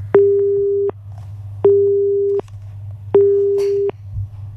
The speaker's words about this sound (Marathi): Cut झाला call.